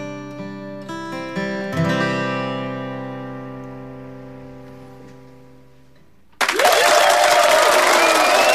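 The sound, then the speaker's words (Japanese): Applause clapped by the host himself with reverb added, bursting in abruptly and loud after a sustained musical chord slowly fades, then continuing as dense, echoing clapping. “自分で拍手するというね、リバーブかけるの忘れて途中からリバーブかけると”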